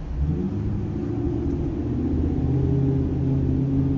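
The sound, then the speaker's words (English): Deep engine rumble from an old pickup work truck's exhaust as it drives past, a steady low, throaty drone that holds through the whole stretch with no voices over it. “that exhaust ain't too bad. See that? What kind of truck was that? That was a, That was an old like pickup work truck”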